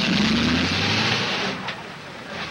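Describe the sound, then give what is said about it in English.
A taxi cab driving away: a steady engine drone with a rising tone at the start, easing off in level toward the end. “Outside, the cab drives away.”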